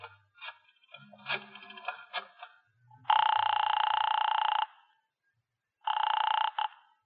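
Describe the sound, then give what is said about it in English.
A telephone ringing on a call placed from a drugstore phone: first a run of brief, uneven tones, then two steady buzzing rings separated by a pause, the second shorter than the first. “I got out and found a telephone. I dialed the Kelsey residence.”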